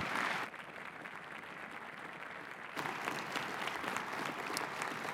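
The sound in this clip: A standing audience claps to welcome Pastor Tice to a chapel service, continuous dense applause that grows fuller and louder midway through.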